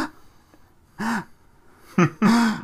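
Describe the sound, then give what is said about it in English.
A person imitates a long, sharp breath drawn in, giving a few short, breathy gasps with a voiced edge. They come alone, with near silence between them. “she brought in a video of Kristen Stewart breathing in. But it was her breathing in for about 4 minutes.”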